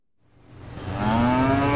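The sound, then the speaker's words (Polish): A cow moos once, a long, deep bellow that swells from silence and holds steady to the end. The cattle stand in a few centimetres of flowing water on a farm that makes biogas from manure. “Krowy stoją w kilku centymetrach spływającej wody.”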